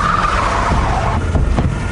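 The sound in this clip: Car tires skid and screech as the vehicle is driven hard: a loud, continuous squeal over steady car noise that lasts the whole clip, with no voices.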